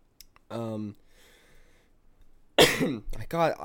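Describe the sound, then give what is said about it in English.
A cough from a man recovering from a feverish illness: one harsh, noisy burst set among short voiced sounds. “I got something that caused me to cough uncontrollably for past couple days.”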